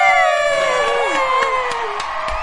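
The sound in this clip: A studio audience cheers and whoops in a loud, sustained burst of many mixed voices, with high shouted tones sliding over the crowd noise.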